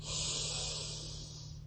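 A deep inhale during a breathing meditation: one steady, airy rush of breath lasting under two seconds, soft and hissing, easing slightly as it ends.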